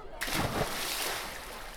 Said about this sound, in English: you're not even sure you really want to go in. But now everyone's watching you, and then you start wondering, maybe your swimsuit's riding up weird. So the only thing to really do is jump right in.